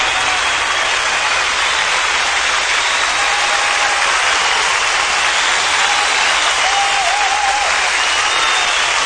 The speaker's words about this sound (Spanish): Aquí está la despedida con los aplausos, esto enlatado.